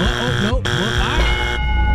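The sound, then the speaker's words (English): Game show buzzer: a loud, harsh, sustained buzz fills the whole stretch, with a brief dip in its brightness midway. “The buzzer was right. The buzzer was right.”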